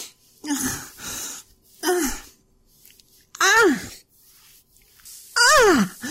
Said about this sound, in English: Why can't I catch my breath?